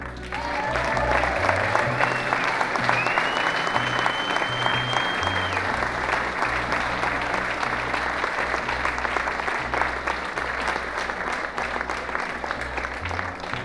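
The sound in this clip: A crowd applauds to welcome a lead singer joining the band for a song, a thick, unbroken wash of clapping that stays loud and even for the whole stretch without easing off.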